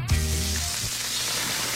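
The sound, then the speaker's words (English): Smash burgers sizzling on a hot griddle give a steady, dense hiss of frying fat and meat. It holds at an even level throughout, with no talking. “Fresh, juicy, award-winning smash burgers are sizzling right now”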